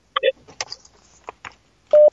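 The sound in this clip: A telephone line connecting an incoming call: short electronic blips and clicks, then a steady mid-pitched tone that cuts off near the end.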